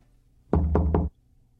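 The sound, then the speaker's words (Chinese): Three knocks on a door in the middle of the night: quick, evenly spaced, solid thuds close together, sounding alone against quiet. “正躺着，听到嘟嘟嘟三声，似乎有人敲门。”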